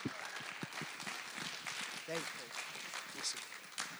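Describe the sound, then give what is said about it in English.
Audience applause welcoming a speaker who comes up to share a message, a quiet, continuous patter of clapping heard under talking throughout. “Come on, let's really put our hands together.”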